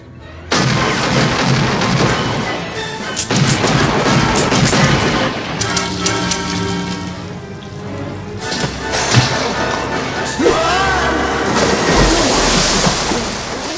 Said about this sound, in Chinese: 一梭子子弹不仅没杀死弗兰克，还被反杀